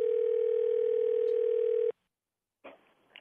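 A steady telephone tone, heard while calling someone back, holds for about two seconds and then cuts off abruptly. A short silence follows, then a brief burst of noise.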